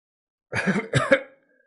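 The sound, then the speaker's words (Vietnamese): Two dry coughs in quick succession, short and rasping, heard alone with no talk. “Lý Diệu ho khan, vội nhổ ra hai ngụm máu.”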